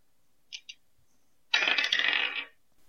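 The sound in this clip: Dice rolled during a tabletop roleplaying game: two light clicks, then about a second of dense clattering rattle as they tumble across a surface, with no talk.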